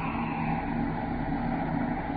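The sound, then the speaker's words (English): Spaceship braking rockets firing at one quarter power as the ship descends toward an asteroid: a steady, dense engine-like roar, even in loudness from start to finish, with no talk over it. “Braking rockets, one quarter. Aye, sir. Braking rockets, one quarter.”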